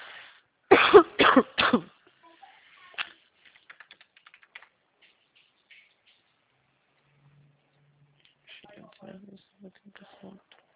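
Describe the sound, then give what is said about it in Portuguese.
A person with a lingering cough coughs three times in quick succession, loud and rough. Faint clicking follows, and quiet voices come in near the end. “Desculpa, tô uma tosse que não passa.”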